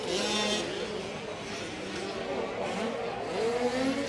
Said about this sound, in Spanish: aplicando el acelerador a fondo